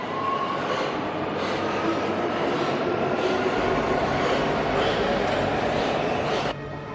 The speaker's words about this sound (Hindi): देखो अब जो ट्रेन आएगी हम दोनों उसमें सवार हो जाएंगे